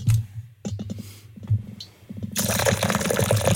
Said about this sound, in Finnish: Mä kaadan vielä tätä ekaa.